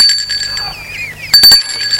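A bell rings at a gate intercom, giving steady high ringing tones with a few sharp clicks near the end.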